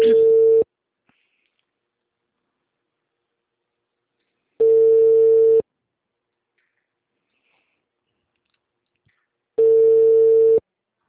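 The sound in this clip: Ringback tone of an outgoing telephone call, three steady one-second ring tones separated by roughly four seconds of silence, even and clear with nothing else audible between them.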